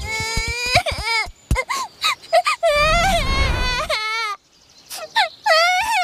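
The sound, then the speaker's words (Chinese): A child cries and wails in repeated sobbing bursts with high, wavering, sliding pitch, loud and broken by short gaps, with a rougher, noisier sob in the middle. “好像有人在哭，走看看去。”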